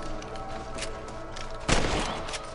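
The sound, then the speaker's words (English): Gunfire in a first-person shooter video game, with shots sprayed into corn. A loud burst of shots breaks out partway through over steady, busy game noise. “Now you're shooting corn. Now you're wasting bullets.”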